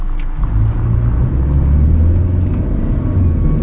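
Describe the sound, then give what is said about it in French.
A pickup truck drives along a country road in rural Korea, its engine giving a steady, loud, low rumble that holds even throughout without clear revving or passing sounds. “Un pick-up est venu récupérer des Vietnamiens au bord d'un champ. Alors on va le suivre jusqu'à sa destination, chez le verger de Madame Wan”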